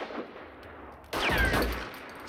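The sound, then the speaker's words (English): A single loud gunshot cracks out partway through a shootout between a gunman and henchmen, its blast ringing and fading over the following second. “Joe shoots Mickey and stumbles forwards, trading fire with another henchman.”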